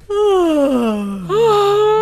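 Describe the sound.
A genuine vocal yawn: a long, loud voiced moan sliding downward in pitch, followed by a second shorter swell that rises and levels off, with no words spoken.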